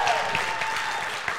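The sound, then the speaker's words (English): A church audience at the Vineyard applauds a teacher's name, a brief burst of dense, even clapping at moderate loudness. “I mean, we need to do a lot better clapping. That was like, Michelle Ackley! All right?”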